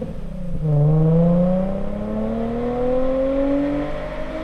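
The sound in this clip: Nissan Z sports car engine accelerating hard and shifting into third gear: a brief dip in engine pitch near the start, then a long, loud, steady climb in revs as the car pulls through the gear.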